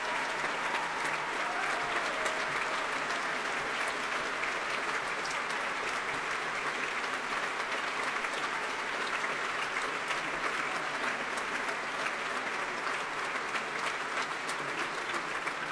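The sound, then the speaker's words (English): Sustained, dense audience applause at the BBC Proms after a concerto performed with jazz musicians, its clapping steady and full for the whole stretch with no break or voices rising above it. “50 or so years after its first performance, the first performance of this concerto, there's really rave reception from the audience, all the jazzers standing, and now the main orchestra.”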